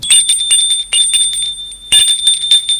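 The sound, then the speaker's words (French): A doorbell rings in rapid repeated strikes of a high, metallic bell tone, with a short pause before a second burst of ringing near the end. “Le lendemain, ils sonnent chez eux.”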